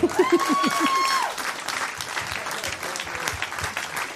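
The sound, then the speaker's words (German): An audience at a live comedy show applauds with steady clapping, opening over a short voice, then dropping slightly in level and continuing evenly. “Ich erwarte an dieser Stelle einen Applaus vom Publikum.”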